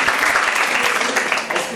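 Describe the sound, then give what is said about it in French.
Audience applause for a group of students: dense, fairly loud clapping that holds steady through the whole stretch without pause. “Voilà, vous pouvez les applaudir.”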